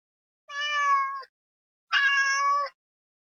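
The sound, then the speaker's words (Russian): Two drawn-out cat meows, each clear and tonal with a fairly steady pitch, separated by a short silence and heard alone. “У Галины есть кошка.”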